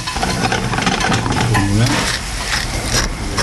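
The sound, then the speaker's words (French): Risotto with morels and shallots simmers and is stirred in a pan, a dense, steady sizzle and scraping hiss with a voice briefly audible over it. “On va mijoter tout ça. Continue de remuer notre risotto. Là, on est bien en cuisson.”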